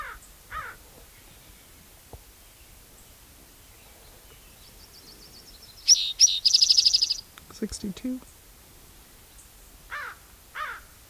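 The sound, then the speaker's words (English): Raven calling: scattered harsh, faint croaks with a quick burst of repeated calls in the middle, heard alone without voices. “Raven.”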